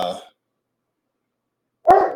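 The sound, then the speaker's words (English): A dog barks outside: two short, loud barks, one cut off at the very start and another near the end, with silence between them. “That's right, the dog agrees outside.”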